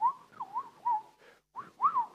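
A woman whistles into a microphone during a church service, in short warbling phrases whose pitch rises and falls. The whistling breaks off briefly partway through, then a few more phrases follow.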